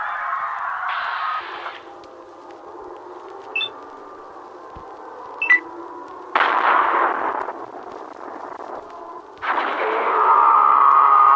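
Electronic activation sound of the V.A.T.S. targeting mode in the Fallout video game: a layered synthetic drone with two brief high chirps, then louder whooshing surges near the middle and the end.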